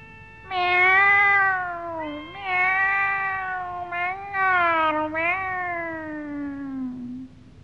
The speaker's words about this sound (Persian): حسن تا گربه رو دید دوید رفت به طرفش و گفت: پیشی پیشی، نازی نازی